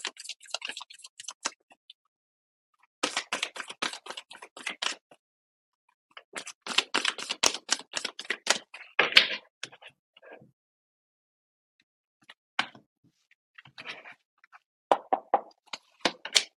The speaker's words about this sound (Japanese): それではちょっとアドバイスカード引いていきましょうね。